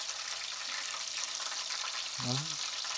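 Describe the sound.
Food frying in fresh hot oil after the heat is turned up: a steady, bright crackling sizzle throughout, with a brief voice sound near the end.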